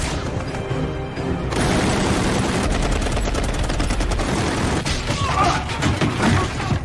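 Heavy gunfire aimed at enemies in combat, a dense, continuous roar of rapid shots and bursts that stays loud throughout with no real pause.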